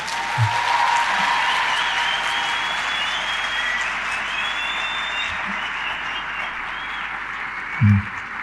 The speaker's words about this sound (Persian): و الان برای کی دست دادیم؟ برای آقا دست به این شلی؟